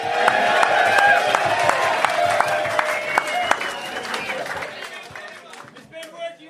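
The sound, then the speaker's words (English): Crowd at a live show in Torquay cheering and applauding, loud shouts and whoops riding over steady clapping, tapering off toward the end while a voice talks over it. “You want some applause from the crowd. You haven't said your limerick yet, pal, but give him some, Torquay. Give him some.”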